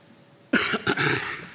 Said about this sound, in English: I'm sorry, I have a little cough this morning.